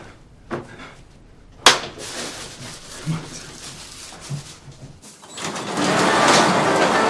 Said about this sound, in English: A garage door opens, and Danny and Ellie